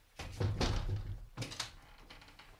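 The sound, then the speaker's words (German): A window is opened with a few dull thunks and knocks, one longer rattling bump followed by a shorter thump, fairly quiet and without voices. “Kann man das Fenster aufmachen? Ja, bitte.”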